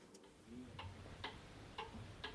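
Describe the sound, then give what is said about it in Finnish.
An old grandfather clock ticks in a farmhouse parlour staged inside a college festival hall. A quiet, slow run of sharp, dry ticks sounds over a low background hum. “Näin tikittää vanha kaappikello Reisjärven opiston perustajien Elsa ja Antti Räiselän tuvassa”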